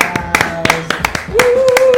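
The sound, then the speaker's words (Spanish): Rhythmic hand clapping for a radio guest, sharp evenly spaced claps in a quick beat over a sustained tonal voice or music. “Un aplauso, ¿no?”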